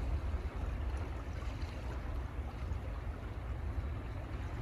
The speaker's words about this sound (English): Take in the wind, the bird song, the water,